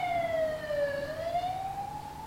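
An ambulance siren wails without voices, its tone dipping lower, then climbing back up in one slow sweep. It holds a steady, moderate loudness.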